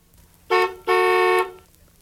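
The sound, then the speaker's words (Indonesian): A car horn honks twice during a vehicle check: a short toot, then a longer steady blast, both bright, loud and alone with no talk. “the horn's been checked”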